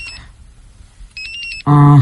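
A telephone rings in two short bursts of high electronic tones separated by a pause, followed by a louder, lower buzzing tone at the end.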